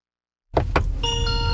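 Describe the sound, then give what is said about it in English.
A cheerful welcome tune from a Chinese electric car plays as the driver gets in. Two brief knocks break the silence, then bright, sustained chime tones ring out over a low hum. “Here we are. There's a little tune every time you get in. It's very cheery. Very cheery. It's a little welcome to your car.”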